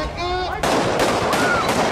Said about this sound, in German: Über 2 Stunden lang zogen Demonstranten friedlich durch die texanische Hauptstadt Austin, forderten Gerechtigkeit und ein Ende von Polizeigewalt, als plötzlich Schüsse fielen.